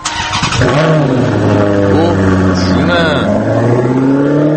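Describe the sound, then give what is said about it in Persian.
A car engine cranks and catches, then revs hard as it accelerates away fast. The loud, throaty drone rises in pitch with a few surging rev swells. “دقیقا با همین سرعت که شنیدید این ماشین رفت، یعنی پاشو گذاشته بود رو گاز داشت میرفت، اونم با چه سرعتی”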